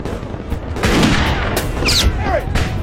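Gunfire in a crossfire, a loud, continuous clatter of shots and booms with a few sharper bursts standing out over a dense, noisy wash throughout.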